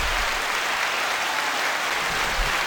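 Sustained audience applause and cheering forms a steady, even wash of clapping noise at moderate volume that neither builds nor fades across its short span.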